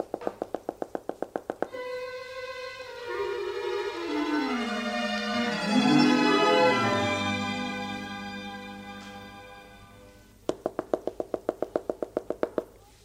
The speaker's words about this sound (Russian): Стучит.